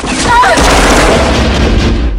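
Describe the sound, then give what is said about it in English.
Two gunmen open fire among parade floats in a film scene. The gunfire is a loud, continuous booming burst with no separate shots standing out, heavy and sustained throughout. “Two gunmen pop up and open fire.”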